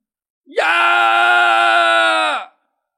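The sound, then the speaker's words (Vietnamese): A man shouts loudly in pain, letting out one sustained, strained cry of about two seconds that holds a steady pitch before cutting off, heard alone. “Triển Phong hét lớn một tiếng rồi phun đầy máu tươi”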